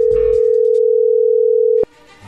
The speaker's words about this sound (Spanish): ahí se está marcando